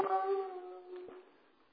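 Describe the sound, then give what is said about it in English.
A hound dog lets out one drawn-out, tonal howl that starts fairly strong and slowly fades, with a brief catch near the end. The whole sound is faint. “My hound dog is getting a little berserk here.”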